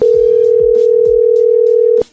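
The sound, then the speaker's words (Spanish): Steady telephone tone on a call being dialed, a single unbroken mid pitch held loudly for about two seconds before it cuts off abruptly. “Márcale otra vez.”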